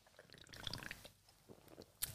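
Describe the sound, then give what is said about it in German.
Faint sipping of Red Bull Zero energy drink, with soft wet mouth and swallowing noises, a brief lull, then a short sharper click at the end, and no talk. “Ich trinke mal einen Schluck.”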